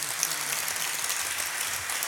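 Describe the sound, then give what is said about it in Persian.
An audience claps on cue during a religious song recital. The clapping is a faint, even patter of many hands that continues steadily for about two seconds. “نه، یه کف خوشگل بزن.”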